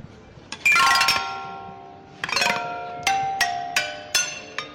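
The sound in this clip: Marimba played in a short demonstration: a handful of bright, struck wooden-bar notes, each ringing and decaying, with a quick cluster at the start followed by separate strikes at irregular intervals. No talking.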